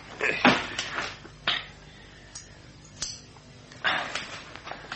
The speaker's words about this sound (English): Here, get the valise open.